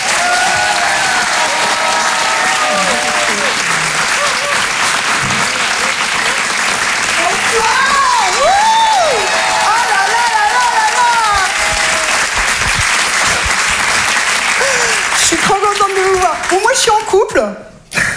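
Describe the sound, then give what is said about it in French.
A live comedy show audience applauds and cheers as a stand-up comedian is welcomed on stage. Dense, steady clapping runs throughout with scattered whoops and voices on top, then cuts off sharply at the very end. “Je vous demande de faire du bruit, s'il vous plaît, pour Judith Delaire!”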